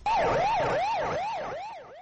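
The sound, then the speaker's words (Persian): Fire engine sirens in Iran wail loudly, the pitch rising and falling in quick, regular sweeps, fading slightly toward the end. “آژیر آتش‌نشانی‌ها این روزها ایران را فرا گرفته است.”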